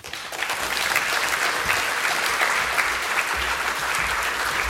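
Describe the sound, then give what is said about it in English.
An audience applauds to welcome a speaker to the podium: dense, steady clapping that stays loud and even throughout, with no talking over it. “I'll turn the podium over to him, and please give him a warm welcome.”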